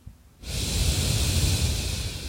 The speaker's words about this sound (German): Und beobachte einfach mal ein paar Atemzüge. Einatmen.